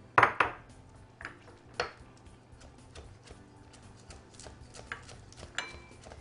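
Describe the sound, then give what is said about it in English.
Knife knocks on a cutting board in a kitchen as scallions are cut: a few sharp, irregular taps, quiet and spaced apart, with no talking. “Okay, I'm going to clean off my knife with a sanitary towel and then cut some scallions.”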